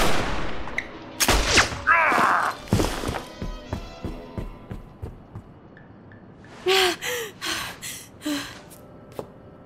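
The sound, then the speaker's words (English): Gunshots in a tense audio drama confrontation: a few sharp, loud bangs in quick succession, then fainter thumps and gasping breaths. “Shot didn't kill him.”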